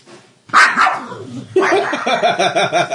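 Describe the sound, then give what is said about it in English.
A novelty dog alarm clock plays a recorded barking dog. One loud bark sounds, and after a brief pause a rapid, loud run of many barks continues to the end. “That was my alarm clock. I have a doggy alarm clock.”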